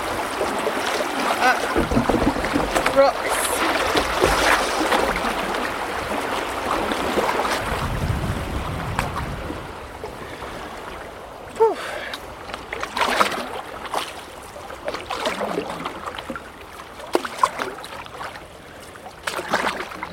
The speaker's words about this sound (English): It feels as though it's slightly harder work paddling today